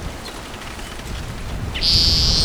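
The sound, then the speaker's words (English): Bird song recorded in June along a creek in Elmore County, Idaho: a single high, steady whistled note enters near the end over constant loud wind noise. “very different song from the other bird”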